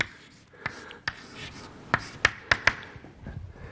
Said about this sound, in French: Et maintenant, je vais l'écrire de façon générale. Alors, je vais, réécrire simplement cette relation-là, donc dφ sur dt.